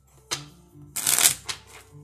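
Playing cards handled from a deck: a sharp snap, then a brief, bright riffling burst and another quick flick, fairly soft against a quiet low hum.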